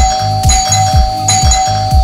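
A small bell rings like a doorbell: a loud electronic chime repeating in a fast, even rhythm of bright dings over a sustained steady tone.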